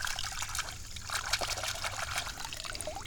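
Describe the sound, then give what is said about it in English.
Water running over a golf ball as it is washed off: a steady, continuous trickling and splashing that holds at a fairly even level throughout, with small bursts of dribbling. “We gotta wash it off.”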